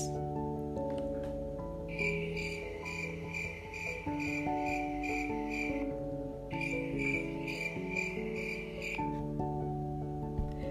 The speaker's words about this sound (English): was not like other crickets who sound like this.